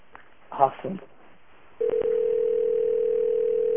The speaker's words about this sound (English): It is the crapper phone. A pay phone inside of a bathroom.